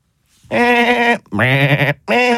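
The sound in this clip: Sheep bleat in three drawn-out, wavering calls, the sheep being brought in to graze and mow a lawn; the first two bleats are long and loud and the third is cut off at the end.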